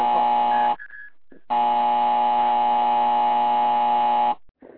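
A harsh, steady electronic buzzer cuts off a caller on a radio call-in show, sounding one short blast and then a long sustained one of nearly three seconds, with no voices.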